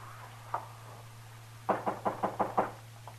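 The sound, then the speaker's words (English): Knocking on a door in an Old West radio drama: a single knock, then a quick run of six firm raps and a faint final tap, over a low steady hum. “I couldn't figure who was knocking.”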